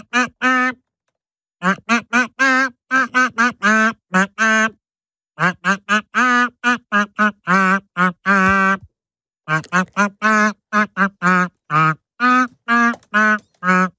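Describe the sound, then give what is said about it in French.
A human voice imitates duck quacks to sing a pop song's melody, many short, nasal quacking notes in a steady rhythm, grouped into phrases separated by brief pauses. “Notre canard bleu ce matin, qui va nous chanter son tube en version canard.”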